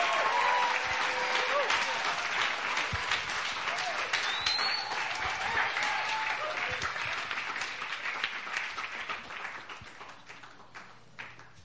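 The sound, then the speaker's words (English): A church audience applauds to welcome a pastor to the stage. Dense, sustained clapping runs throughout, loud at first and tapering slightly toward the end. “So without further ado, let's put our hands together. Let's welcome our Pastor Benjamin Robinson.”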